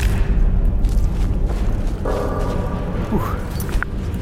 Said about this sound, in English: No, I hit Lydia. I'm sorry, Lydia. I'll only shoot one fireball at a time from now on.